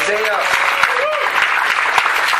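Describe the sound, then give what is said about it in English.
Applause for a newly married couple: a dense, steady patter of many hands clapping at once, with a voice speaking over it. “So we applaud you.”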